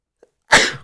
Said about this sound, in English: that sneeze came out of nowhere